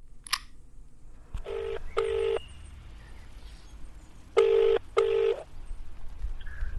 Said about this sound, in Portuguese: Vamos ligar para um caboclo que conhece muita coisa de final de Liga dos Campeões?